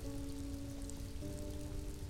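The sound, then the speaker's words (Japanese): Rain falls in a steady, even patter throughout, with a faint sustained low tone beneath it. “そんな簡単に雨が止むわけないじゃないですか。”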